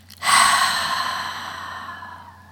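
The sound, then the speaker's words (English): Breathing in through the nose and out through the mouth as a settling exercise: one long, airy breath that starts abruptly, stays loud, then slowly fades, with no talking. “So what we'll do is we'll take a breath, nice inhalation through the nose, and you can release through the mouth.”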